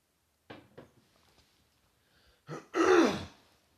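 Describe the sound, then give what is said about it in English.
A person clearing a clogged throat: two light rasping catches, a quiet pause, then a louder, drawn-out guttural clear, with no talk. “Sorry, my throat's clogging up here.”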